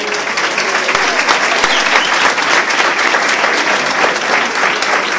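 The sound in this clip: An audience applauds ten brothers who have recovered from addiction, with dense, steady clapping that stays loud and unbroken for the whole clip.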